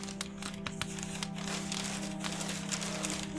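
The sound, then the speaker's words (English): Paper wrapping held with scotch tape crinkles and rustles as a present is unwrapped, a faint, continuous crackle over a steady low hum. “Do I need to save the paper? No, don't worry about it. Can't even rip it. It's just scotch tape, man.”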